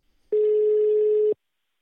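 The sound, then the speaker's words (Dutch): Ringing tone of a telephone call being placed: a single steady, pure mid-pitched tone lasting about one second, loud and alone against silence. “ja, het handigst is natuurlijk om even te bellen met degene die mij die foto heeft toegestuurd.”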